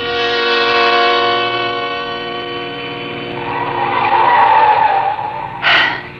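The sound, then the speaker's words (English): A car engine revving hard as the car is driven fast up a steep, winding mountain road. The loud, sustained harmonic whine wavers in pitch, then a brief tire squeal cuts in near the end. “We were driving too fast, but I knew that if I slowed down at all, I would begin to tremble. And so, although the road was tortuous, climbing steeply up the mountain, I kept my foot pressed hard on the gas pedal.”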